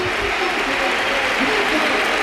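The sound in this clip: A football stadium crowd on its feet applauding a player being substituted off: a dense, unbroken roar of clapping that stays loud and even throughout.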